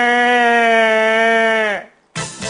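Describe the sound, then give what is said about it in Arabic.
Sheep bleating: one long, steady, nasal bleat holds for nearly two seconds and trails off, then a second bleat begins after a short pause. “صوت خروف الموظفين هاي باع باع.”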